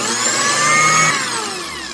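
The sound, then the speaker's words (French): A blender purees peeled garlic and onion with a steady, high-pitched motor whine that shifts pitch partway through and keeps running without a break. “Pelez l'ail et l'oignon et réduisez-les en purée au mixeur.”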